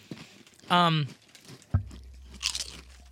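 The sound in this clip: Crunching bites of barbecue-flavoured baby back rib chips being eaten: a few crisp, dry crackles with a short hummed murmur, fairly quiet overall.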